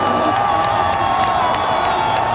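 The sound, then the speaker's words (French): Dense crowd of hockey fans cheering at the Centre Bell during a Canadiens game against the Buffalo Sabres, a loud continuous roar of voices and shouts with sharp bursts flickering through it. “La foule est très compacte. Il y a quelques chanceux qui ont réussi à arriver assez tôt pour se garantir des places assises là, dans les escaliers devant les écrans géants.”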